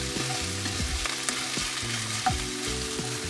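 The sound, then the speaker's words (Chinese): Instant noodles stir-fried with XO sauce sizzle in the pan, a steady soft crackling hiss broken by occasional scraping and tossing sounds, with no talk. “好，我现在加一点点 S O 酱下去，然后。跟这个炒泡面呢一起做翻炒，”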